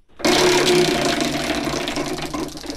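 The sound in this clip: A prize wheel given a big spin starts abruptly into a loud, rapid, continuous clatter of clicks that slowly eases in loudness as it turns, with no voices over it.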